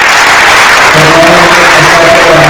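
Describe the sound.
Applause from an audience honouring a remembered local performer, a dense, loud, steady wash of clapping filling the whole clip without pause.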